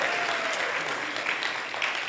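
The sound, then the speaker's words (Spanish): An audience applauds, a dense, steady wash of clapping that stays loud and even for the whole stretch, with faint voices mixed in. “Give Luis a round of applause.”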